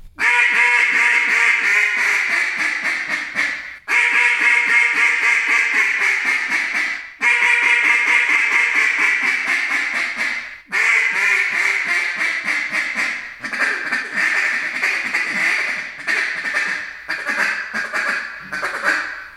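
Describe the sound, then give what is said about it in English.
A small-bore single-reed duck call sounds out in several long runs of loud, nasal, rapid quacks separated by brief pauses, with no talk over them. “Now, that was a single reed small talk, which is our small bore single reed.”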